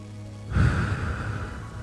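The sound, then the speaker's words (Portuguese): A single slow, deep human breath during a relaxation breathing exercise: a soft, airy rush of air swells after a brief pause, then holds and fades gently, quiet and without speech. “faz isso, inspira e expira. Mais uma vez.”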